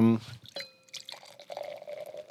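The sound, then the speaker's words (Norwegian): Cider, a lightly sparkling pét-nat, is poured into glasses after a brief voice at the start. A soft, steady trickle of liquid follows. “Skal jeg helle i glassene her.”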